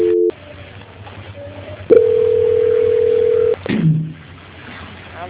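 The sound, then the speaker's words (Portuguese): Telephone line tones during a call transfer: a short beep, then a loud, steady single-pitched tone held for under two seconds, cut off by a brief burst of lower tones and line noise. “só um minutinho que eu vou estar transferindo a ligação. Transferência.”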